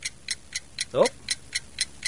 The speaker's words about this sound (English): Oh, it seems to be ticking. A clock. Ahmed bought me a clock for Thanksgiving.